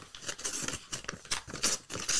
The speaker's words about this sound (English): Let's open some mail.